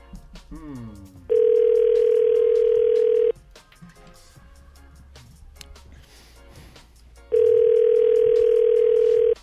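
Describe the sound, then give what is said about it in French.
A telephone ringback tone plays while the caller waits for someone to answer: two long, steady, mid-pitched tones, each lasting about two seconds, separated by a quieter gap. “On est en attente. Il faut évidemment tout d'abord que la personne réponde.”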